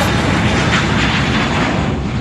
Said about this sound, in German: Das ist ein Düsenjet. Der startet gerade.